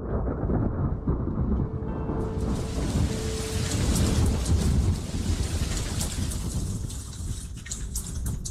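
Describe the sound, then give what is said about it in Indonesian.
Heavy rain pours steadily while deep thunder rumbles underneath, a dense, loud, unbroken wash of drops and low roar lasting the whole stretch, with no voices. “ayo kita pulang sayang. Udah mau hujan.”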